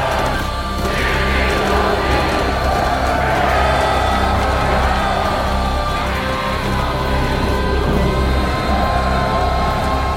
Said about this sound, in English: We've all heard those trance-inducing battle cries on the big screen. And they do something, right?